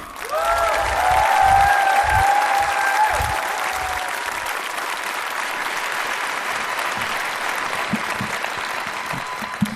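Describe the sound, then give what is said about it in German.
Applause from a stage-event audience welcoming an artist: dense, steady clapping that fills the whole clip, loudest in the first couple of seconds and then holding at a strong, even level. “Und jetzt noch einen letzten großen Applaus für einen Künstler, der auf die Bühne kommt.”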